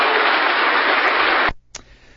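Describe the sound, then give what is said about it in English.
Audience applause for two debaters at a debate on biblical inerrancy: a dense, even wash of clapping that cuts off abruptly after about one and a half seconds, followed by near silence with a faint click. “All right, let's give both of these gentlemen a round of applause.”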